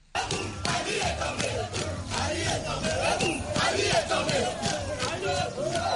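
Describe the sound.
A crowd in Libreville celebrates after the coup with loud cheering and shouting. Many voices chant and yell together in a continuous, rowdy roar that lasts the whole clip.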